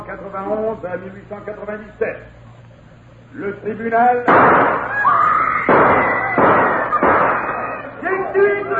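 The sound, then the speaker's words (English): Gunshots erupt in a courtroom: several loud, sharp bangs burst out after a stretch of talk. Raised, agitated voices carry over and between the shots. “Gunshots have thrown the courtroom into turmoil.”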